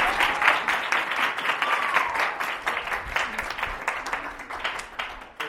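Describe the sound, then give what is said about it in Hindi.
An audience at a church gathering claps in praise of God: a thick wash of applause, strongest at the start and gradually thinning toward the end, with no voices over it. “Carry, तो खुदावन की तारीफ जरा जोरदार तालियां।”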